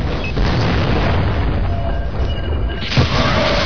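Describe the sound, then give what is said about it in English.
Mortar explosions in a video game, with a base under heavy fire. Dense, continuous rumbling booms hold at a steady loud level, and one sharper burst stands out near the end. “The generators are down. I see mortars just going off. It's like a 4th of July party in here.”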